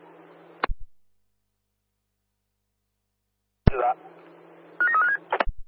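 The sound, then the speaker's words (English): Telephone dialing tones sound in short bursts: a brief tone early on, then after a silent gap a quick run of several stepped touch-tone beeps over a faint steady hum. “Dialing now.”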